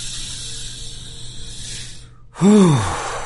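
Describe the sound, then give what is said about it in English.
A deep breath drawn in, heard as a long, soft, airy hiss that fades, then a brief pause and a short, louder voiced breath with an arching pitch. “Okay, take a deep breath, breathe in.”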